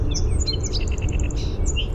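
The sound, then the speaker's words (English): A song sparrow sings its high-performance song: high, bright chirps followed by a rapid run of evenly spaced repeated notes in the middle, then a few further chirps, all over a steady low background hum. “First, here's what you call the high-performance song of a song sparrow.”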